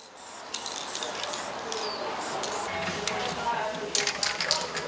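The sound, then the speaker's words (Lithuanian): An aerosol spray paint can hisses out graffiti onto a wall in short, airy bursts of spray, with a few sharper, brighter bursts near the end. “Prieš šimtmetį norvegų chemikas Erikas Rotamas užpatentavo pirmąjį aerozolinį purškiklį.”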